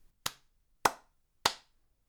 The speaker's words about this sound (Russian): Андрей Юрьевич похлопал в ладоши.